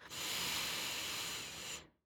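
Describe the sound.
A long, deep inhale through the nose during a guided deep-breathing exercise: one soft, steady, airy hiss that holds for almost two seconds and then fades into silence.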